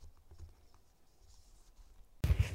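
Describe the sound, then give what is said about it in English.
Soft, faint scratching of pens or pencils on paper as former sponsored children write final letters by hand to their sponsors, in light irregular strokes, ending in a sudden louder burst. “We're here today, and we are going to ask you to write one last letter to your sponsor from all those years ago”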